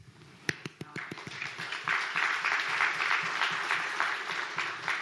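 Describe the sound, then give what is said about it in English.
Congregation clapping at a Baptist church service: a few sharp, separate claps at first, then swelling into sustained, even applause that continues to the end. “by the way, it's okay to clap. We're still Baptist.”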